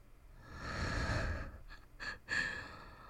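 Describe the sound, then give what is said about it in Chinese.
Soft breathing close to someone's face: one long, airy exhale followed by two short, quick breaths, all faint and with no talking. “哦，你呼吸，你呼吸弄得我好痒。”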